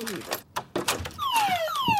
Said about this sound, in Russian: Мама, зачем ты включаешь сигнализацию, когда ты дома? Но это мера предосторожности.